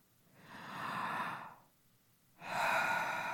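A deep breath drawn during a guided meditation: two long, soft airy swells of breath, the first rising and easing away, the second starting after a brief quiet gap and staying strong to the end.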